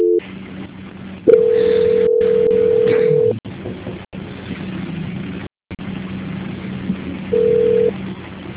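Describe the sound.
Telephone line tones during a call transfer: a steady beep holds for about two seconds, then a shorter beep sounds near the end, over a low line hum broken by brief dropouts.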